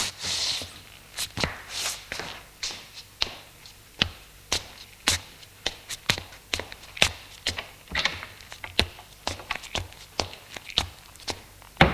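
Footsteps of three people getting up, leaving a room and going upstairs: many steady, sharp thuds in an even walking rhythm, fairly faint and alone.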